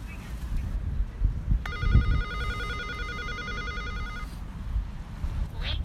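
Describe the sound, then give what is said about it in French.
An intercom buzzer rings at a building entrance: one steady, pulsing electronic tone lasting about two and a half seconds over constant low background noise. “est-ce qu'on sonne à l'interphone?”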